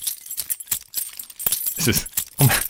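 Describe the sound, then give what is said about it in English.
Keys jangling as they are taken out: a few quick bursts of bright metallic clinks and rattles, irregular in rhythm and growing louder toward the end. “I'll just take out my keys”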